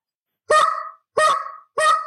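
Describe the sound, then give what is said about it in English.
A goose call, blown by a world-champion goose caller with cheeks puffed out, imitates a goose's cluck. Three loud, evenly spaced honking clucks each last about half a second and taper off, with no talk. “I can give you a little example of if you were to puff your cheeks out and cluck”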